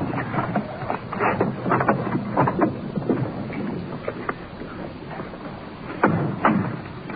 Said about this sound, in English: Wind blowing past here tonight.